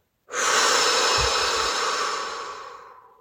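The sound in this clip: A slow, deep breath taken during a mindfulness breathing exercise while lifting a ball overhead. It is one long, airy rush that starts abruptly and fades gradually over about three seconds, with no talking.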